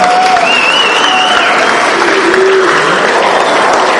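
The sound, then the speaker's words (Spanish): An audience applauds steadily at an evening launch event, a dense, loud wash of clapping that holds without a break from start to finish. “¡Un aplauso!”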